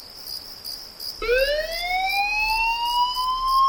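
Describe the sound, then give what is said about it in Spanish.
An emergency alert alarm from a fire brigade sounds at night: a steady high electronic tone with a pulsing pattern gives way to a loud siren-like tone that sweeps upward and holds. “Son las 4 de la madrugada. Suena un aviso. Alguien necesita ayuda en algún punto de la isla.”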